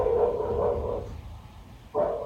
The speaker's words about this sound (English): And the bark isn't like what happens when a stranger knocks on the door. This bark is a bark of pure panic and terror.